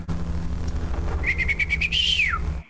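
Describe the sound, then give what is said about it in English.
A piercing bird call: a rapid run of short chirps leads into a longer whistled note. That note climbs slightly, then drops away. It sounds clearly over a low, steady background hum, with no voices. “gives a piercing bird call, at which point you hear just a single bell”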